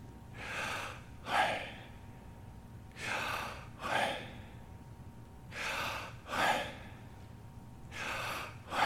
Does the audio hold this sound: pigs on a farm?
no

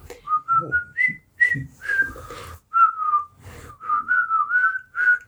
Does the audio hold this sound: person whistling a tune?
yes

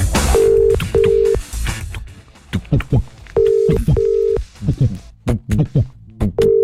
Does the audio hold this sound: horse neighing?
no

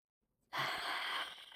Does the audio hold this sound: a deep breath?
yes

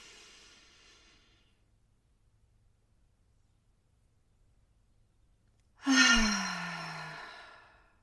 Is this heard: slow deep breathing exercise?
yes

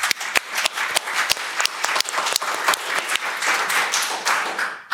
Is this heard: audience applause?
yes

